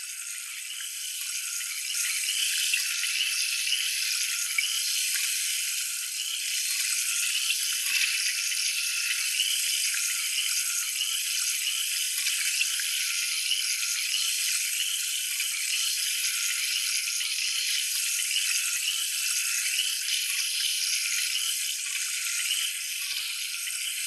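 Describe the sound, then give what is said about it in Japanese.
Running water hisses steadily as a hair treatment is rinsed out of hair, an even, continuous spray that holds at the same level for the whole stretch with no talk. “それでは最後にトリートメントを流していきますね。”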